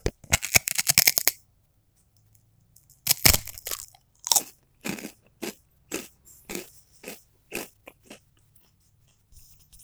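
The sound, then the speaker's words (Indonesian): Crunching while eating noodle crackers: a dense flurry of crisp crunches, a short pause, then many sharp, brittle chewing crunches at a steady rhythm that gradually fade. “ini bentukannya kerupuk mie mitoha coba kita makan”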